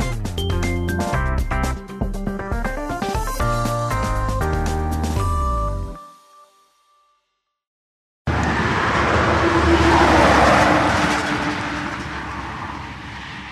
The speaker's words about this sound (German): Über eine alte Alleenstraße rollt spärlich der Verkehr Richtung Ostsee.